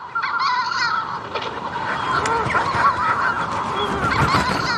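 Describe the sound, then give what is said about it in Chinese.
Manx shearwater calls from a breeding colony on Skellig Michael island, a dense, continuous chorus of harsh, raucous, overlapping cries that stays loud and steady throughout, with no voices. “其实这是一种鸟类的叫声，它们从南大洋和巴西远道而来，到斯凯利格迈克尔岛繁殖育雏。这就是大西洋鹱。”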